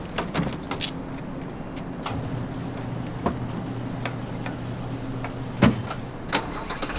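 A car engine runs in a low, steady hum with a few sharp clicks and ticks scattered over it, no voices.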